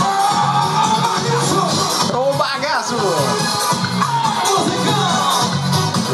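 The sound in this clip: A live concert audience recorded in Brasília: a dense, loud crowd roar with voices singing and cheering together, holding steady for the whole stretch without a break.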